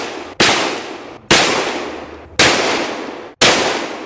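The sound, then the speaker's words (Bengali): Four sharp revolver shots at a university convocation ceremony, each a loud, abrupt bang with a long ringing tail that fades before the next, spaced roughly a second apart, with no voices. “সেই অনুষ্ঠানেই বিশ্ববিদ্যালয়ের আচার্য জ্যাকসনকে লক্ষ্য করে তিনি চালিয়ে দিলেন পরপর ৫টি গুলি।”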